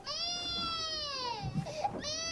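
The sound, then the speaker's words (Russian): A baby girl cries in a long, high, sustained wail that slowly sinks in pitch, breaks into rougher, choppier sobbing sounds, then returns to a steady wail. “Почему она плачет? Ей грустно.”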